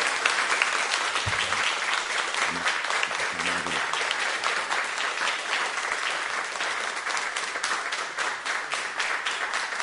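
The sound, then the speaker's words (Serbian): Sustained audience applause after a poetry reading: dense, steady clapping from many hands that holds at an even, fairly loud level throughout, with no voices. “Jedan veliki aplauz.”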